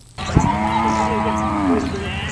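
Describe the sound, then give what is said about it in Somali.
Cattle at a livestock market in Sarif, southern Wajir, during a drought. One long, loud, low moo is held for about two seconds over a steady background hum. “Halkan waa darka xoolaha ee magaalada Sarif Koonfurta wajeer.”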